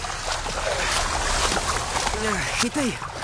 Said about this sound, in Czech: Zkusím přitáhnout loďku ke břehu. Podej mi ruku. Tady.